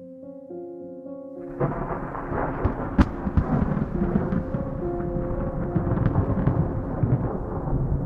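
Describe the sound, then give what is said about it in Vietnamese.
Rolling thunder and steady rain of a night storm, one sharp crack cutting through midway, with a sustained rumble and hiss beneath tonal music that plays alone at first. “Tiếng sấm vang lên rền trời, từng ánh chớp như tia lửa điện xẹt ngang, vẽ lên những đường chằng chịt.”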